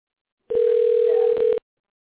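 A telephone rings on an outgoing call: a single steady, mid-pitched ringback tone lasting about one second, sounding alone between stretches of silence.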